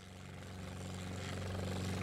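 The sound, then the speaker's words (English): A Chinook helicopter, bought as Army-Navy surplus, gives off a steady deep rotor and engine drone with layered humming tones that grows gradually louder. “I got a Chinook helicopter. I bought it off an Army Navy surplus website.”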